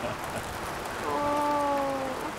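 Rain falls outdoors as a steady, soft hiss that swells slightly in the second half, with a brief tonal hum rising above it midway.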